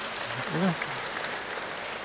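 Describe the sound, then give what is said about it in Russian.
Audience applause welcoming guests during a sermon, a soft, even patter of many hands clapping, with a short voice heard briefly early on. “Очень приятно увидеть их, и я думаю, что можно аплодисментами поприветствовать”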